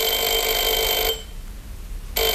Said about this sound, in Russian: Ночью меня разбудил телефон.